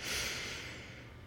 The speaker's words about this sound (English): Deeply inhale your power through your nose.